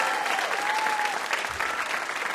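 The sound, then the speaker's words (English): Studio audience applause for a VIP guest on a puzzle game show, a dense, steady wash of clapping that holds at even loudness throughout. “How about a hand for our VIP, Adam Rappaport?”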